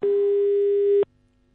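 A telephone line tone sounds as a call is placed. One steady, mid-pitched electronic beep holds for about a second, then cuts off abruptly, leaving only a faint line hum.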